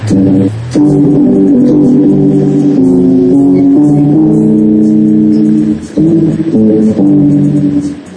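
Electric guitar played through a wah pedal by someone trying the effect for the first time: loud, sustained distorted notes hold and shift in pitch, broken by brief pauses.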